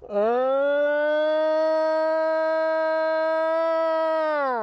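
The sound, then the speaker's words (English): A long, mournful howl attributed to a Sasquatch, recorded in Ohio in 1995, rises quickly at the start, then holds a loud, steady, siren-like tone rich in harmonics before easing slightly at the end, heard alone. “Other times you hear the long sort of mournful howls, often described as the Ohio howl”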